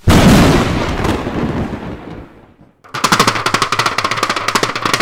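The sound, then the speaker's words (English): Hockey fans' clapper noisemakers rattle in rapid, loud clattering bursts as Lightning fans celebrate a Game 7 win. The clatter follows a broad roar that fades almost to silence. “That's the sound of the clappers, baby!”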